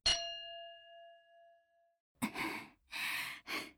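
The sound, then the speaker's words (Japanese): A boxing gong is rung to open a sparring round: one bright metallic strike that rings on and fades over about two seconds. After a pause, three breathy sighs or exhalations follow. “じゃあゴングを鳴らしてスパーリング開始です。”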